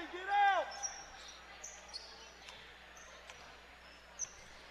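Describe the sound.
A basketball is dribbled during a game, with a few faint, irregularly spaced bounces over a low crowd murmur. Occasional high, brief squeaks sound alongside.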